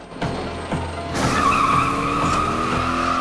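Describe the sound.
A car reversing with a wrecked white car stuck to its front, then swinging round with tyres skidding; a low engine rumble surges after about a second into a loud, rising rev with a sharp tyre squeal, then holds steady.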